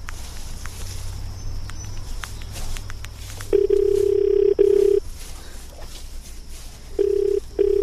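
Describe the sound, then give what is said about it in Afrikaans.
A telephone call being dialed: a few soft clicks and taps, then a steady low ringing tone that sounds in repeated bursts separated by short pauses. “Kom ek bel haar.”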